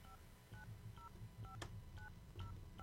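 A telephone number is dialed on a keypad: a faint run of about seven short, evenly spaced tones with a couple of small clicks between them.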